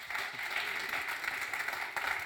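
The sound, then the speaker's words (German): Applause from an audience, a dense continuous wash of clapping held at an even moderate level for a couple of seconds without a clear rise or fall. “Ultra, ich glaube, das hat einen grossen Applaus verdient.”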